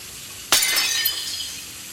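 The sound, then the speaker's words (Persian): A plate slips from a hand while dishes are being washed in a kitchen and shatters, one sharp crash followed by a bright, ringing scatter of breaking shards that slowly fades. “یه بشقاب از دستش افتاد.”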